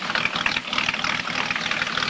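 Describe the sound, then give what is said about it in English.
A fishing boat motor runs with a steady low rumble and a faint rhythmic chug, continuous and unchanging across the short stretch with no voices. “Sandy and his father walk to Porter's fishing boat, and Porter starts the motor.”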